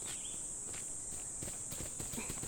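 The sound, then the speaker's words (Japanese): Children run on a picnic outing, their quick, light footsteps patter irregularly beneath a steady, high insect-like drone. “あ、ちょっと、そんなに走ると転ぶよ。”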